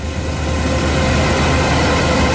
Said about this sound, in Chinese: 走进山西大同市云冈区西韩岭乡泰善村，收割机正开足马力作业，转运车辆紧随其后，将刚收获的玉米及时运往收储点。